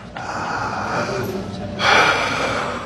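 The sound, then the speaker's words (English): A deep breath, drawn as one long, airy, breathy hiss that swells noticeably louder in its second half, with no talking over it. “Deep breath.”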